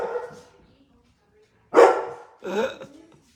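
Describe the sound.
A boxer dog gives two sharp barks, a loud one followed by a slightly softer second after a short pause, with a brief fainter sound at the very start and quiet in between.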